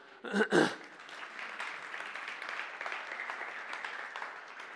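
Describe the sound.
A church audience applauds at a morning service to welcome a married couple: a couple of louder claps open into sustained, even clapping from many hands.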